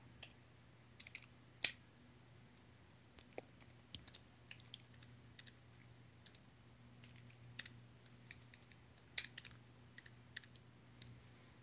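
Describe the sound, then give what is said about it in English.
Faint, sparse keyboard typing as a command is entered on a computer, scattered soft key clicks with irregular gaps over a steady low hum. “So for that, I type CNTK. And I have to specify the configuration.”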